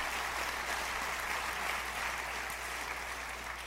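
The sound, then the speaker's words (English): A studio audience gives steady, sustained applause to welcome guests, a dense and even patter of clapping that eases slightly toward the end. “I'm honored to be joined by some esteemed colleagues who are lawyers and journalists, Jeffrey Toobin, Sunny Hostin, and Ross Garber. Give them a warm welcome.”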